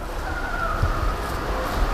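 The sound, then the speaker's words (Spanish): A time machine starting up as a sound effect: a steady, loud whirring drone with a thin, sustained high tone running through it, holding at an even level without pause. “Agárrate, que ponemos en marcha la máquina del tiempo.”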